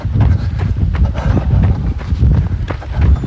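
Running footsteps of two people side by side thud in a quick, steady rhythm. The many strides are loud and continuous throughout.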